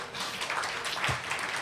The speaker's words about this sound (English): Please applaud and thank Focal for joining us here.